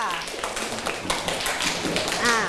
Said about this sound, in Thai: กลุ่มอื่นเห็นด้วยปรบมือให้เพื่อนหน่อยค่ะ